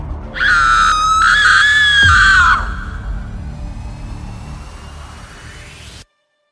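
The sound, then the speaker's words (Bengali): A person screams loudly in one sustained, high-pitched cry lasting about two seconds that breaks off sharply, leaving a fading ringing tail before abrupt silence. “হঠাৎ একটা চিৎকার শুনলেন”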